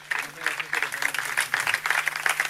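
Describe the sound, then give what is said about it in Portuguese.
Applause for fado musicians after a performance with Portuguese guitar, viola de fado and bass: dense, steady clapping from an audience that fills the whole moment, with a voice speaking over it. “Estas palmas são mais do que merecidas”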